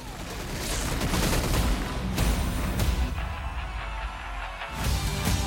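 Gunshots from a gun being fired: a dense, noisy barrage with a few sharper, louder bursts standing out, sustained at a fairly strong level throughout.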